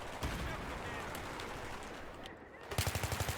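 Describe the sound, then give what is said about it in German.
Rapid automatic gunfire from a video game shooter rattles out as a dense, continuous stream of shots, then breaks into a short burst of loud, evenly spaced rapid shots at the end. “Okay, erstmal alle den Kopf schießen.”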